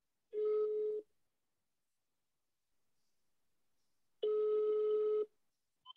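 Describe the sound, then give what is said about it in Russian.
A telephone tone follows a dialed number: two steady, mid-pitched beeps, the second slightly longer, separated by a long near-silence. A faint click comes at the end. “Поэтому сейчас мы ей позвоним. Давай, набирай. Набираю.”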